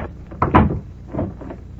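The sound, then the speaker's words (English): A door opens as a radio drama sound effect: a muffled, woody clunk and rattle, then a softer second knock and creak, alone and fairly loud. “Behind every unopened door, there is a mystery. And the opening of this door introduces us to another in the series, the key.”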